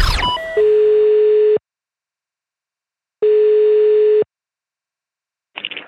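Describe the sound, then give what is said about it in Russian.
Telephone line tones as a call is placed: a few quick chirping blips, then two long steady beeps of about a second each, separated by a pause, with a third beep starting at the end. “звоним от лица ЗАГСа в Истри или Истринского ЗАГСа, как угодно, и попытаемся разыграть хорошего человека. Поехали.”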